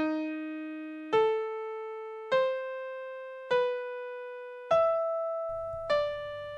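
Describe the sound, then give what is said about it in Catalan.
Six sustained musical notes spell out the name Sacher as a motif. Each pitched tone is struck cleanly and then decays, and the notes follow one another at an even, unhurried pace. “De tal manera que el nom de Xàxer traduït en notes sona així.”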